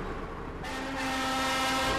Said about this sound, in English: I'm about to get on a train that's going to take me 2.5 miles underneath the ground.